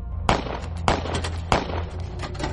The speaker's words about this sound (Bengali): পরপর তিনটে গুলিতে তিনটে তালা ভেঙে গিয়ে সিন্দুকের ঢাকনাগুলো লাফিয়ে সরে গেল।